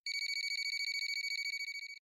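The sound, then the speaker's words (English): A telephone rings with a rapid electronic trill of many quick, bright beeps lasting about two seconds, steady at first and then fading slightly before stopping. “And after a few moments, the phone rang.”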